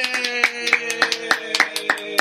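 Hands clapping in celebration after a child finishes a dinner of vegetables: many sharp, quick claps in an uneven, lively rhythm, each a crisp bright slap at a moderate level.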